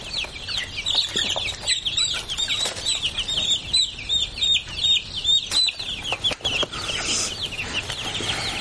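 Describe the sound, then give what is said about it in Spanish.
Many chicks peep continuously, high and busy, while they are sorted by hand between two boxes in a house living room, with occasional soft rustling and handling bumps among the chirps. “Ella continúa concentrada separando los pollos.”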